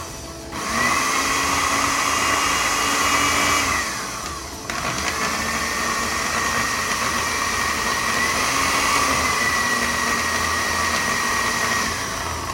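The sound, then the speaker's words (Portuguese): A food processor motor whirs as it blends potato, broccoli and cauliflower. Its loud, steady hum winds down briefly near the middle, then starts again and runs evenly to the end. “Agora vamos pegar essa batata, brócolis e couve-flor que estavam escorrendo, põe aqui também. Olha que trabalhoso que é isso, gente. Tudo junto, é só ligar e processar.”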